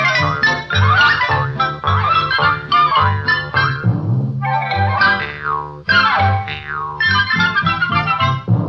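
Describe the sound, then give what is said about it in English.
Springy, distorted boing effects imitate a rubber ball bouncing: a long run of wobbly, warbling tones with bending pitch, loud and almost continuous, with only brief gaps between bursts. “If I were a rubber ball, I'd bounce around and around. If I were a rubber ball, this is how I'd sound.”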